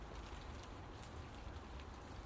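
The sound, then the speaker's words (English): Light, calm rain falls in a steady, even hiss of soft patter throughout, with no gusts or heavy bursts and no voices. “Is it the calmest rain ever so far? At the moment, anyway, it might suddenly turn into a torrential downpour.”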